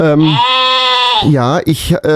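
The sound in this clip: A sheep bleats, starting with a long, loud, quavering bleat and followed by shorter, broken bleats.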